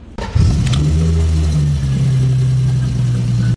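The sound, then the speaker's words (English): The engine of an old Gusheshe car starts up and revs into a loud, steady, low drone that holds for about three seconds with a slight settling in pitch. “Okay, any ideas what that is? That is the Gusheshe. The then, you mean, huh? Gusheshe, the old one.”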